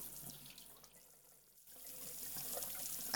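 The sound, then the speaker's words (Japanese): Warm water runs to wet someone's hair during a hair wash, a quiet steady hiss that dips and briefly breaks off near the middle, then returns slightly stronger. “では、髪を濡らしますね。”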